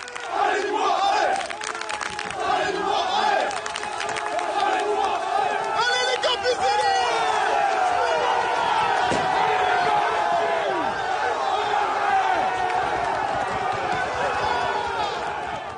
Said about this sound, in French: C'est déjà dans une ambiance bouillante que les supporters des Crocos ont accueilli leur équipe au stade.